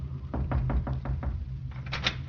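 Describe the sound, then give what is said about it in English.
A knuckle raps on the medical officer's door aboard a warship: a quick series of firm knocks, followed by a softer second cluster, over a low steady hum. “At 10:30 a.m., Raymond A. Willis, pharmacist's mate, first class, knocked on the medical officer's door.”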